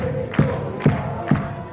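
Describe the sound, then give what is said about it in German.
Football fans cheering a women's team in a stadium after a match: a steady crowd roar with three loud, rhythmic shouted accents that rise out of the din at even intervals, like a chant. “Doch Kapitänin Marlies Sänger und ihr Team werden minutenlang von den Fans gefeiert.”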